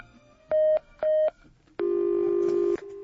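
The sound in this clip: Telephone tones as a call is dialed from a radio station: two short, identical beeps, then a longer, steady tone at a lower pitch that drops to a quieter continuing tone, with no voices.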